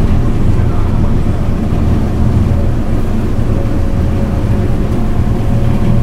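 Steady low engine rumble of a crowded passenger boat under way, a dense, even drone with no clear breaks throughout.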